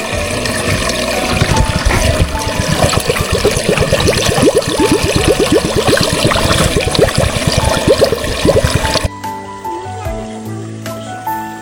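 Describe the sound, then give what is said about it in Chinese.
Water poured outdoors into a bucket found in the wild, a loud gurgling, splashing pour that runs steadily for about nine seconds and then stops abruptly, leaving quieter background noise. “只需要一个这样野生的桶桶，然后我们来装点水，这里可以整个都灌进去。”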